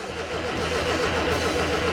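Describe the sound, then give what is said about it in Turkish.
Starter motor cranking an engine that will not fire, the air filter removed and the fuel supply in doubt; a steady, rhythmic churning whir runs for the whole clip without the engine catching. “Şöyle bir marş basalım da yakıt geliyor mu evet, gelmiyor mu? Evet bir marş basalım bakalım.”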